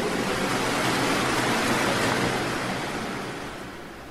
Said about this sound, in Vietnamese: Lại một con sóng lớn nữa ập đến, mọi âm thanh đều bị nhấn chìm.